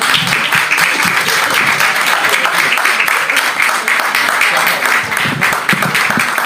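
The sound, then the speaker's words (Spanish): Audience applause welcoming a guest onto a stage, a loud, sustained roar of many hands clapping at once, dense and unbroken across the full six and a half seconds. “Los voy a dejar a todos ustedes con Javier Muñiz, para quien pido un aplauso.”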